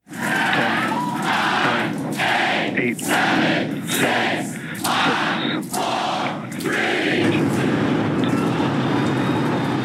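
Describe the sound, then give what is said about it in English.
SpaceX's uncrewed Starship rocket lifting off its South Texas launch pad: a loud, continuous, broad roaring rumble that stays intense throughout, broken by a few brief dips. “SpaceX's unmanned Starship rocket took flight in South Texas this morning. Here it is lifting off the launch pad from SpaceX's live webcast of the launch.”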